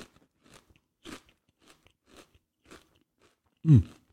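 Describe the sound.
Someone eats crunchy spicy snacks, giving many brief crisp crunches and chewing clicks at an irregular pace, mostly faint, then one much louder, heavier crunch near the end.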